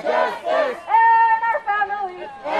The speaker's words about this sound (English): That's the sound of people celebrating in front of the Supreme Court last Thursday.